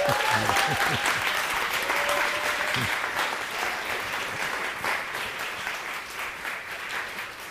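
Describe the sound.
An audience gives a warm round of applause to welcome a speaker. Steady, dense clapping continues throughout, with a few brief vocal sounds near the start.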